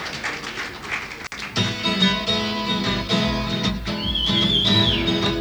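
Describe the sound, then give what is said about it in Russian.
A person whistles a short, wavering, high tune over loud band music at a live concert in Moscow; the whistle enters late and lasts briefly above the steady instruments. “Я свистеть тоже умею.”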